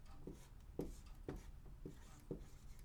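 Handwriting as someone writes out a word: a few short, faint scratchy strokes spaced at a steady rhythm, with no voices.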